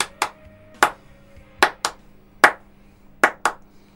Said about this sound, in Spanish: En realidad hay que hacer claps. Es para esto.